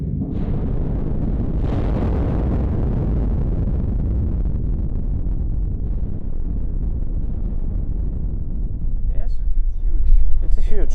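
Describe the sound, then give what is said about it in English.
A rock-blasting explosion at a quarry mine face booms as a heavy, sustained low rumble. A sharp burst comes near the start and another shortly after, and the rumbling carries on for many seconds before brighter crackling noise swells at the end. “Holes are drilled for the next blasts. Now we feel the blasting works. It's 180 meters from this point.”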